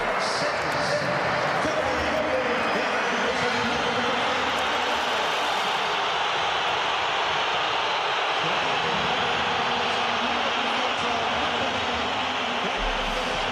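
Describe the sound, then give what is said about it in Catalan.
Loud whistling from Atlético Madrid football fans in their stadium as Julián Álvarez is brought on, with Simeone's side level at 1-1; a dense, steady, hissing wall of whistles holds for the whole stretch. “I amb l'1-1, Simeone, l'entrenador matalasser, ha fet entrar Julián Álvarez i l'afició ha respost amb una forta xiulada. La sentim.”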